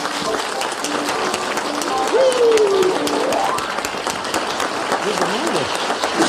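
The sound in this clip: An audience applauds to welcome a female skateboard champion from San Diego, California. The clapping is steady and dense throughout, with voices mixed in.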